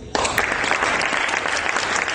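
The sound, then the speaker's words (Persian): Audience applause for filmmakers at a Venice Film Festival event. It breaks in abruptly after a brief quiet moment and continues as dense, steady clapping until the end. “و اینو جناب آقای پناهی و آقای رسولوف اینو اینجا ثابت کردن و ازتون میخوام تشویقشون کنم.”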